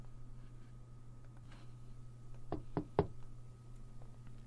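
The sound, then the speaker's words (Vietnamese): Three quick knocks on a door, sharp and close together, rising slightly in force, heard faintly over a low steady hum. “Ngay lúc mà Diệp Viễn đang cảm tưởng thì phía ngoài cửa vang lên tiếng gõ”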